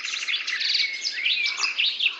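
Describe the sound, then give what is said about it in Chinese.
Birds chirp in a recovering mountain forest near tea fields, with many rapid, high-pitched tweets and trills that overlap continuously, moderately loud. “森林生态越来越好了，鸟也越来越多了”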